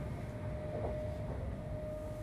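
A train travelling back to Helsinki gives a quiet, steady rolling rumble with a faint thin whine held above it. The sound is even throughout, with no voices.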